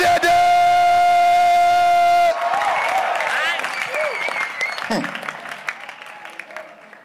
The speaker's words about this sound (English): Clap your hands and give the Lord a shout.